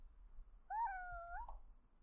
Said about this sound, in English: my kitty just jumped onto the table I'm recording on, came up to my mic, meowed into it and walked away right at that exact moment.